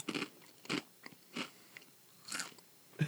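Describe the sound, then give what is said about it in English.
Crisp bites and chewing of a tangy, Cheez-It-like cheese cracker snack: several distinct crunches spaced irregularly, with softer chewing crackles between them, fairly quiet and with no talk. “Ooh, they're not what I expected. They're a Cheez-It. They're a Cheez-It.”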